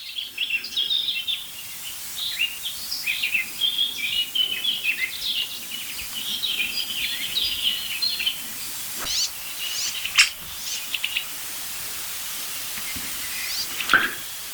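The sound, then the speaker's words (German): Young birds give thin, high-pitched begging calls, many soft quick chirps over a steady hiss, with a few sharper clicks scattered later on. “Also es ist wirklich abgefahren, weil jedes Mal, wenn ich pausiere, höre ich die Bettelrufe.”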